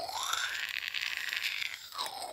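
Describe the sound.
A stovetop coffee pot gurgles and sputters as the coffee finishes brewing, a soft, continuous bubbling hiss with a faint whistling tone.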